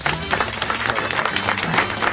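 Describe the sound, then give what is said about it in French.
A live comedy show audience breaks into applause. Many hands produce a thick, steady patter of clapping at a constant level. “Eh ben, finalement, applaudir, c'est un peu fesser sa main.”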